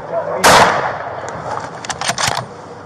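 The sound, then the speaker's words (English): A single loud gunshot fired by police at a suspect cracks out early and alone, followed by lower, scattered bursts of noise as it fades. “shot taken, shot taken, suspect is down. One shot was taken, and the suspect was down.”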